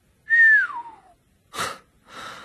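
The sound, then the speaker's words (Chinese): A person whistles softly, one note gliding smoothly downward in pitch, followed by two breathy exhalations. “哈利轻轻吹出一声口哨。”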